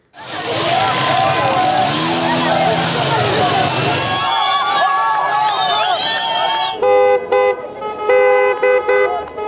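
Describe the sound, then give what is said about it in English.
Street protest over soaring oil and energy prices: a loud, dense crowd murmur fills the first half, then car horns honk in several sharp bursts, some long and some clipped, over continuing traffic and voices. “Here's the sound of some of those protests worldwide.”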